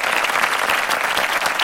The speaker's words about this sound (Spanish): Así van a ser los aplausos, igualitos para nuestra selección mexicana el día de mañana.